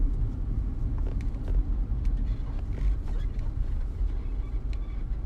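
Low, continuous road rumble from a car driving past a property, steady and even throughout, with faint scattered clicks on top.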